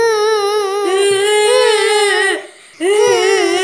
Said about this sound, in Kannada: ಅಂತಃಪುರದಲ್ಲಿ ಒಂದು ಕಡೆ ಮಹಾರಾಣಿಯವರು ಅಳುತ್ತಿದ್ದಾರೆ, ಮತ್ತೊಂದು ಕಡೆ ಅರಸರು ಅಳುತ್ತಿದ್ದಾರೆ.